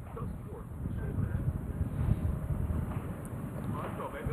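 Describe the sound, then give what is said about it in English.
Wind blowing outdoors during a scored match, a faint, continuous low rumble of buffeting wind with irregular small gusts that never let up. “The wind's starting to pick up here.”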